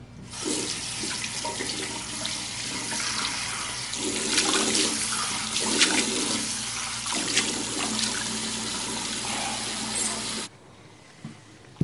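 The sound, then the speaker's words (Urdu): Tap water runs in a steady, loud rushing stream while someone washes their hands and face. The flow continues for about ten seconds, then cuts off abruptly, leaving near silence. “جا کر ہاتھ منہ دھو لو”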